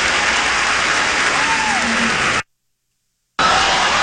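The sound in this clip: An audience applauds and cheers in a dense, steady roar of clapping. The sound cuts to about a second of silence where words were bleeped out, then the applause resumes.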